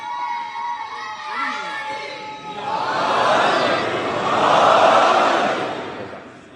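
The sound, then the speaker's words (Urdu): A crowd at a religious gathering shouts a slogan in praise of Mawla: one sustained voice first, then massed voices surge in two loud swells before fading. “اور نعرہ لگائیے مولا کا”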